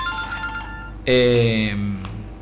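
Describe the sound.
A telephone rings for incoming calls, sounding as steady electronic tones, then a louder buzzy tonal burst that fades away.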